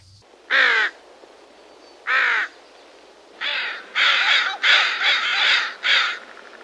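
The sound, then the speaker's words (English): Harsh, nasal caws of a northwestern crow, a small crow of the northern Pacific coast of Alaska, ring out alone, first as widely spaced single calls and then as a quicker run of raspy caws. “That was the harsh, nasally caw of the northwestern crow, a small crow that resides perhaps exclusively along the northern Pacific Ocean of Alaska.”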